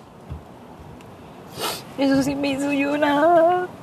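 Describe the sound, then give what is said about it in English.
A woman sobbing: a sharp breath is drawn, then a high, wavering, voiced cry rises and trembles for over a second before breaking off. “She's sobbing.”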